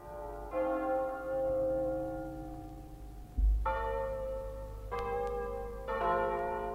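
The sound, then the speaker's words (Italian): Church bells ring a double peal from a nearby village in the countryside: four resonant strokes, each with a long, musical ringing tail that hangs in the air between strikes. “A un tratto dalla campagna, da un villaggio vicino, giunge il suono di un doppio di campane. È un suono disteso, implorante, musicale, religioso.”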